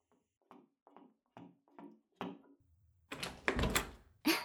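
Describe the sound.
A door is being opened, all fairly quiet. A few soft, evenly spaced taps lead into a louder clunk and rattle, then one more sharp thud closes the sequence.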